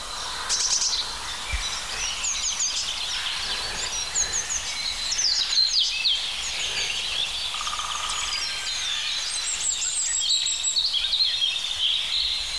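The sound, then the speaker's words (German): Rippling robin song with rough crow calls: high, thin chirps and trills run continuously at an even, moderate level with no voices. “Dieses schöne plätschernde Rotkehlchen und diese rauen Rufe. Eigentlich doch Krähe, oder?”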